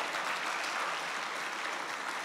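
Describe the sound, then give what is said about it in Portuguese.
Congregation applauding during a church service: dense, even clapping that holds at a steady level from start to finish, with no voices standing out. “Pode dar aplaudir a Jesus, é?”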